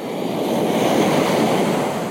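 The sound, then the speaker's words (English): Ocean waves surge in a steady, loud, rushing roar of surf with no pause. No separate crashes stand out. “get this picture in front of you of the waves crashing in front of you, one after each other.”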